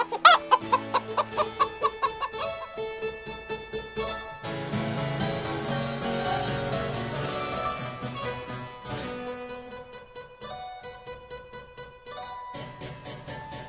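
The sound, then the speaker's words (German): Music imitating a hen's pecking and clucking, opening with a quick run of short, repeated staccato notes, moving into a fuller, sustained passage, then returning to pecking repeated notes near the end. “Also es hört sich so an, als würde das die ganze Zeit picken, picken, picken. Und vor allem wollte Jean-Philippe Rameau, dass sich die Musik wie das Gackern des Huhns anhört.”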